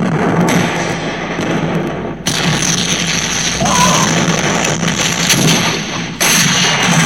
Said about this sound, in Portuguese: Os computadores estão tá explodindo, cara.